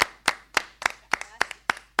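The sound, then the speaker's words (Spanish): Hand clapping in honour of guest performers, a singer and a guitarist: eight sharp, evenly spaced claps in a steady rhythm, fairly quiet and with nothing else over them. “Y un aplauso para nuestros invitados de hoy.”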